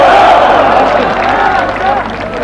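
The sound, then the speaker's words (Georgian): Crowd cheering and shouting at a political rally in Georgia, a dense, loud roar of many voices that holds steady through the whole moment with no pauses. “აბა კიდევ ერთხელ გავამხნევთ, ჩვენს ქვეყანას გაუმარ!”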